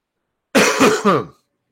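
A single short burst of throat clearing and coughing, about a second long, with two or three rough pulses in quick succession, loud and alone against silence.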